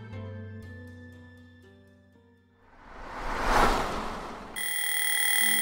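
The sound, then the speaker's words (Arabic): An alarm clock rings to break a quiet sleep, a loud, bright, steady high-pitched ring that bursts in near the end after soft music and a swelling rush of noise. “كان نوما هادئا حتى دوى صوت المنبه”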